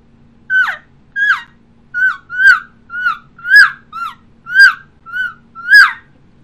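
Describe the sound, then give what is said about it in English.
An imitation of an elk calf call: ten short, high squealing mews in a steady, evenly spaced series. Each mew falls slightly in pitch and is clear and loud, with no other sound. “So that calf sound sounds like this.”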